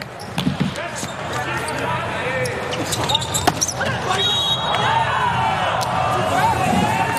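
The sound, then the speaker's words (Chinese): A ball bounces on the court before a serve in a volleyball match between Italy and the USA. A few sharp thuds sound over steady crowd hubbub, and a commentator talks throughout. “詹内利的发球”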